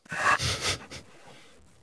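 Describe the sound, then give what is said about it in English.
A soft, relaxed exhalation by a person demonstrating breathing for runners: an airy out-breath in a few gentle pulses that fades into a long, quiet tail. “And if I relax and then I breathe out,”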